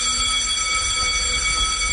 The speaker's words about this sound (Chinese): 昨天随着一阵急促的警报声在空军空降兵某部营区响起